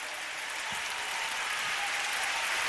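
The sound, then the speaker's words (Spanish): An audience at a church worship service claps in steady, dense applause, a continuous even wash of hand claps with no voices. “Dale más fuerte ese aplauso.”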